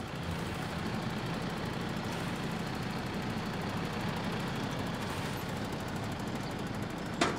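A vehicle's engine and gearbox run while it reverses, giving a steady low rumble with a gritty, rattling texture and a short louder burst right at the end.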